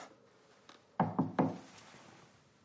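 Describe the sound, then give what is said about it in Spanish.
Knocking on a bedroom door in the morning: three firm knocks in quick succession, preceded by a faint tap, over a soft background hiss. “Ya es de día y Rogers llama a su puerta.”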